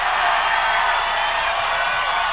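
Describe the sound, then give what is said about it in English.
Loud audience noise from a live record: a dense, continuous wash of crowd cheering and whooping that stays steady throughout. “the big thing that these records had, you see, to offer, was that on it, the audience was at least twice as loud as the band, you see?”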